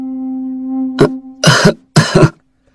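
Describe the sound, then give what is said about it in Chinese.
A few light coughs from a person in a weak, unwell state. A steady low hum comes first, then a short throat sound and two fuller, raspy coughs in quick succession. “云父轻轻咳了两声”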